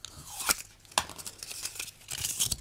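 Draw bowls are spun and a ball is pulled out during a team cup draw, giving faint crinkly rattling broken by a few sharp clicks.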